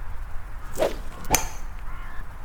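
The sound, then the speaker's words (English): A golf club strikes a ball off the tee on a course near St Andrews in Fife, heard as one sharp click after a faint swish, over a quiet outdoor hiss. “We watch the golf ball fly through the air for a second and make sure no one else is setting up to tee off before we continue our walk to the coast.”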